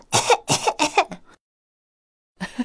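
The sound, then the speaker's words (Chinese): A voice imitates a fire-breathing dragon coughing from something spicy: three quick, harsh coughs in a row, then a silent pause and a brief breathy sound. “哎呦，喷火龙的喉咙被辣得不停的咳嗽。鼻孔里也不断的吸气、呼气，啊啊啊！”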